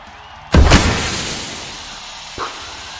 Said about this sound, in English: He is going to deploy a smoke grenade into the arena.